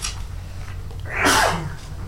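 A single sudden sneeze bursts out over a low, steady background hum during a religious lesson.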